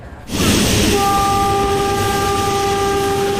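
A train pulls into a station with a loud, steady rumble. A sustained horn-like tone joins after about a second and holds to the end. No voices.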